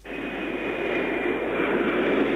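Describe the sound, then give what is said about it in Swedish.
Steady ambience of Heathrow Airport outside London, heard from a rooftop in January 1991 under tightened security: a continuous broad roar like aircraft engines, holding even and loud throughout with no voices. “Här är Heathrow-flygplatsen utanför London, Europas största flygplats. Jag står på ett tak och kan se ut över hela anläggningen.”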